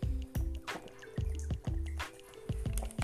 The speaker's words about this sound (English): just drinking some more water. Give me a second, y'all.